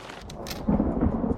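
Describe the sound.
Rain falls outdoors on a street, heard as a brief, steady, dense hiss that swells slightly partway through.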